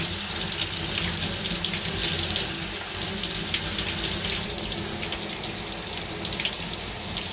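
Running water rinses one side in a continuous, even gushing hiss that holds steady throughout, heard alone without talk.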